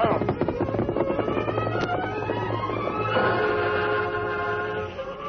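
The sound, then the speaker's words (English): A westbound freight train rolling through a town: a dense, continuous rumble with rapid clattering beats early on and sustained tonal lines layered over it, loud throughout. “But he came to life when the westbound freight train rolled through town. Well, there goes old 97.”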